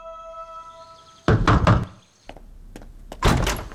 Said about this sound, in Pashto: څو ورځې وروسته د نظیم وکیل د قسیم دروازه وټکوله.